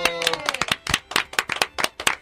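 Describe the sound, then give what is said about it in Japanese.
Hand clapping from a live talk show audience: many sharp, irregular claps, loud and uneven in rhythm, with a voice briefly heard near the start. “今日で286回目を迎えました。拍手。”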